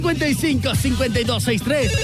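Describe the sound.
A telephone rings with an incoming call, giving a rapid, repeating warbling ring pattern that stays loud throughout.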